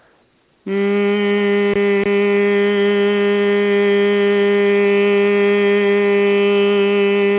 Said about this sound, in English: just humming into the center of the head.